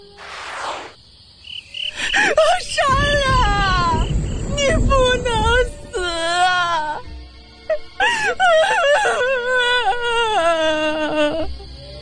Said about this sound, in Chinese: 一阵凄惨的哭声犹如惊雷炸响